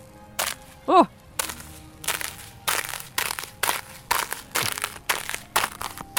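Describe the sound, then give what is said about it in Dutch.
Thin ice on a small puddle being stamped through and crunched underfoot, producing many sharp, crackling crunches in an uneven rhythm. A voice exclaims once near the start. “Wat is dat toch voor een kinderlijk geluk dat je dat ijs door wil trappen.”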